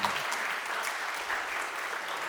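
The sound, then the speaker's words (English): A church audience at Salem Reformed Church applauds its new members with steady, even clapping that holds at a constant level throughout, with no voices standing out. “Let's give them a hand,”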